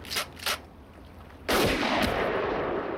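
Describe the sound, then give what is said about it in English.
A single rifle shot cracks out sharply and loudly, followed by a long, rumbling tail that slowly fades, with a couple of faint soft thuds just before it. “Bobby flinches as Joe fires his rifle at Mickey.”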